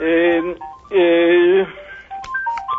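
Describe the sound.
A telephone rings with an incoming call, sustained electronic tones followed by a run of short melodic beeps at shifting pitches, with a voice present alongside.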